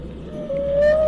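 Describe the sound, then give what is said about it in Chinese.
A whale call rises out of a low, rumbling background as one long, tonal moan that climbs gently in pitch and swells a little louder toward the end. “越来越近了。是什么？那是鲸，别怕”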